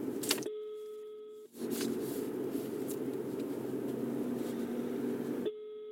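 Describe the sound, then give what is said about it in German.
Ringback tone of an outgoing phone call, a steady long tone, then a gap of quiet murmuring noise, then a second tone that is cut off at the end. “Rufen wir jetzt Dominik Hammes live an.”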